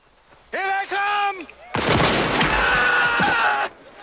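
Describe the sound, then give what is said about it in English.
Gunfire bursts out of the mist in a Civil War battle scene from an audio drama, an abrupt loud volley of crackling shots that runs for about two seconds before cutting off sharply. “Shots fire from the mist, and a soldier grabs his face and falls to the ground.”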